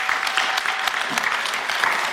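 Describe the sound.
Applause from an audience giving a warm welcome to a speaker's wife as she comes up front, a dense, loud, steady patter of many hands clapping throughout.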